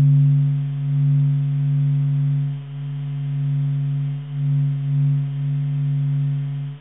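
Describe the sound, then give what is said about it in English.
Sonified vibrations and radiation from the sun's atmosphere, taken from NASA Solar and Heliospheric Observatory data: a deep, steady droning hum with layered harmonics, slowly swelling and dipping in loudness, eerie and continuous. “So what you just heard was the sound of vibrations and radiation emitted by the sun's atmosphere gathered by NASA's Solar and Heliospheric Observatory, then turned into something that the human ear can hear.”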